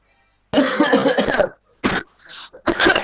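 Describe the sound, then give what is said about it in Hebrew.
Coughing from a sick person at home: a long, harsh coughing fit, then a few shorter, loud coughs separated by brief pauses. “כפי שאתם רואים, יש שיעולים.”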